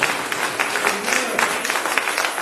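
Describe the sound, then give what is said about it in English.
A Baptist church audience at Mount Ephraim in Philadelphia applauds to welcome a new member, a steady wash of many hands clapping with no clear pauses. “Let's give her a hand.”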